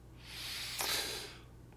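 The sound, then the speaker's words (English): A singer draws a single soft breath, starting the inhale through the nose and finishing through the mouth. The airy hiss swells, peaks briefly, then fades over about a second and a half. “And all that is is beginning the inhale with the nose and then finishing it with the mouth.”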